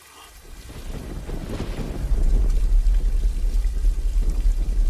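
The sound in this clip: Water splashing in a fountain makes a broad rushing wash that swells over the first couple of seconds, then holds loud and churning with no voices.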